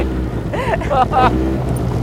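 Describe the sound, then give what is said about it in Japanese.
The engine of a buggy climbs a bumpy mountain path at about bicycle speed, a steady low rumble mixed with wind buffeting. A voice speaks briefly over it. “このエンジン用でだいたい時速15キロぐらい、自転車乗ってるぐらいのスピードで山登ってますね。”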